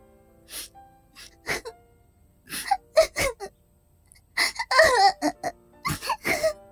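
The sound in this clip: A girl crying and sobbing, with a series of short, ragged vocal bursts, catching gasps and wavering wail-like cries separated by brief pauses. The sobs grow denser and louder toward the second half.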